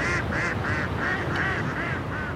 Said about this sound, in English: Ducks still nest here, among willow trees laden with trash.